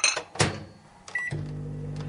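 A microwave oven, with a plate set under its glass dish, is shut and started on a low setting to melt something: a few clunks and a short beep, then a steady low electric hum.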